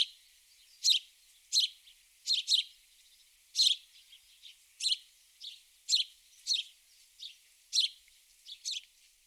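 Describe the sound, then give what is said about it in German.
A house sparrow gives a monotone, simple series of short, bright chirps, about a dozen of them at uneven spacing, some in quick pairs, with nothing else heard between them. “Was ihr hier gehört habt, das ist natürlich der Spatz. Oder man kann auch auf schlau sagen, Haussperling.”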